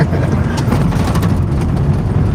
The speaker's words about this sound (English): Some drifting going on here.